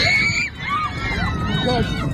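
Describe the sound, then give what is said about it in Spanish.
Passengers scream aboard an airliner in flight on a Dubai to Tel Aviv route, with frantic high-pitched shrieks and shouting over dense, loud crowd babble that continues throughout. “Son los gritos de los pasajeros después de que, según Israel, un piloto apuñalara al otro en pleno vuelo con la intención de estrellarlo.”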